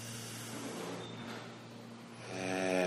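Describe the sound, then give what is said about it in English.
A slow, deep inhale held in a yoga pose, a soft, quiet airy rush with a slight rasp that swells toward the end. “Prepare for the final breath. Deep inhale, stay in the pose.”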